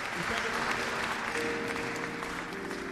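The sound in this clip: Applause from an audience at a Christian worship service, a steady faint wash of clapping that holds evenly throughout, with a voice faintly audible partway through.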